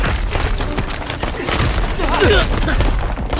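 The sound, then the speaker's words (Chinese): A dense volley of gunfire in a battle skirmish: rapid shots and booms overlap into a continuous loud clatter with no gaps for the full length. “是白匪特务，打！ 开火！”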